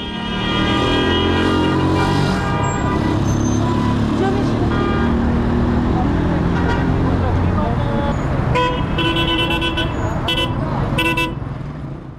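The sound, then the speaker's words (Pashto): Traffic rumbles at a Kabul city vehicle stop where people wait for cars and national buses, with engines droning continuously and several car horns tooting near the end. Voices are heard under the noise. “نو د همدې لپاره زه هم د کابل ښار د موټرونو یو تم ځای ته چې هلته خلکو په ساعتونو د موټر یا ملي بسونو انتظار کوه ورغلم”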